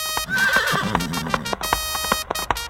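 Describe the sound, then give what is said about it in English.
A white horse neighing as it charges into battle: a shrill, wavering whinny over a steady clip-clop of hoofbeats. “Suddenly, Richard saw the flag of Henry Tudor. Richard charged on his white horse”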